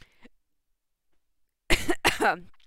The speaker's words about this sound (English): I had a cough. I got a popcorn stuck in my throat.